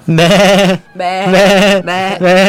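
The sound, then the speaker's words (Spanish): Sheep bleating: a borrego gives several loud, wavering bleats in quick succession, each with a strong nasal tone, and the last is cut off at the end. “bueno, un poco con el desorden que me dejan todo el tiempo, pero apareció un borrego acá.”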